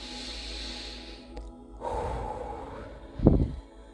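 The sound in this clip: A deep breath taken in and let out during a relaxation exercise: a soft, airy inhale, then a louder, rougher exhale near the end. Alone, without talk.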